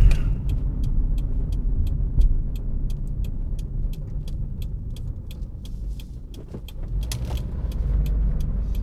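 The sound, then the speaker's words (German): A car drives away after a wash. There is a steady low engine and road rumble, with a rapid, regular light ticking running throughout and a few brief higher rattles near the end. “fahre jetzt hier weg. In der Hoffnung, dass es dem Auto gut geht.”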